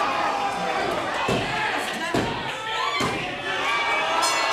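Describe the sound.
A wrestling spear tackle lands amid a cheering crowd, with a few heavy thuds breaking through a loud, continuous roar of voices.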